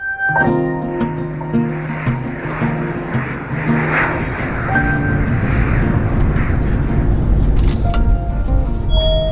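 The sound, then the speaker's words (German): A passenger airplane roars through its landing in Berlin, its engines making a loud, continuous drone with steady low tonal hums underneath a dense rushing noise for the whole stretch. “Meine Damen und Herren, wir sind in Berlin Wir landen”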